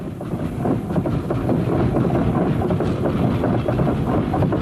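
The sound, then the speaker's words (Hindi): Railway station ambience with a train: a loud, dense, continuous rumble and clatter that holds steady throughout, with no breaks. “अब मैं station के तरफ तो आ गया”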